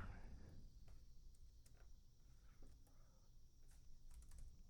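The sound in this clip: Typing on a computer keyboard: many faint, quick key clicks patter irregularly over a low background hum.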